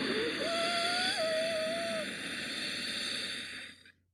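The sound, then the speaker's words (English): A slow nasal inhale with the back of the throat gently contracted during a guided breathing exercise, a steady airy hiss lasting about four seconds with a faint whistling tone, ending abruptly. “Inhale through the nose while gently contracting the back of your throat.”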